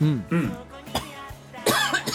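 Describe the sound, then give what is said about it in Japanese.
A sharp, noisy cough breaks out among short voiced vocal sounds from a person, brief and moderately loud. “そういうタイミングで咳ってするもうそういうとこだぞ”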